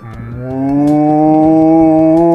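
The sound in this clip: A cow mooing sound effect gives one long, low, tonal moo that swells in loudness and then holds steady to the end.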